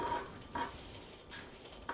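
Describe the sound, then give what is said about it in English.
Glass pot lid rattling on a pot of farro simmering fast, making four faint, evenly spaced clinks over a low bubbling hiss. “I can hear the farro starting to simmer enough to make the lid rattle. You can maybe hear that too. Yeah, it's going pretty fast and furious. I have a glass lid on mine.”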